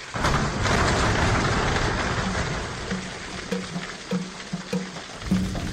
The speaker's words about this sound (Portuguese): Vamos saudar essa necessária chuva.